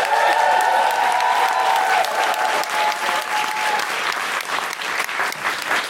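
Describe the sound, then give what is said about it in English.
Loud, dense applause from an audience in a room welcoming a comedian to the microphone, mixed with whooping and cheering, sustained and even throughout. “People with us in this lovely room, would you please put your hands and your whoops and your noises together and welcome to the microphone the wonderful Deborah Frances White!”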